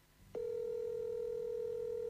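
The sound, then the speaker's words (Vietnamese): A telephone dial tone sounds while a call is placed: after a brief quiet moment, a steady single tone starts abruptly and holds unchanged to the end. “Thôi, anh để em gọi cho anh Nam.”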